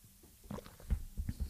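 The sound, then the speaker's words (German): Soft swallowing sounds of someone taking a sip of a drink: a few quiet, low gulps and mouth noises, heard alone with no talk. “Trinken wir nochmal einen Schluck. Auch ein guter Reminder, genug zu trinken.”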